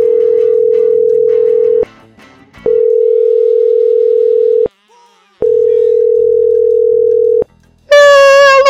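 Telephone tone while calling number 78: three long, steady mid-pitched tones, each about two seconds, separated by short silent gaps. A brighter, different sound follows at the very end.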